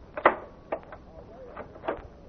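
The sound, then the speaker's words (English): A door is being locked, giving a few short, sharp clicks and knocks from the latch mechanism. The sounds are quiet and separated by brief pauses. “Hey, what's the idea of locking that door?”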